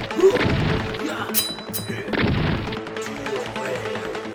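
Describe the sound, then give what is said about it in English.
Shotgun sound effects boom in a couple of heavy, crashing blasts, with sharp metallic clicks between them. “Speaking of shotgun noises.”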